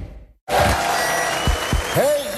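Crowd cheering and applause burst in abruptly after a brief quiet opening, forming a loud, dense, steady roar that continues to the end.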